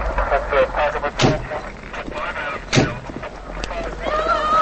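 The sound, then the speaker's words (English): A police car pulls to a stop at night under a steady low engine rumble, then two sharp door slams ring out as officers get out. “It's night as a police car pulls to a stop. Two officers get out.”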